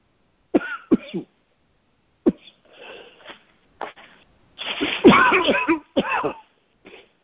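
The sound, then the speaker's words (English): A person coughs repeatedly in a series of sharp, short coughs spread apart, then a longer, harsher fit of coughing and throat clearing, with a last few faint coughs. “I'm sorry. I don't think I've ever coughed this much.”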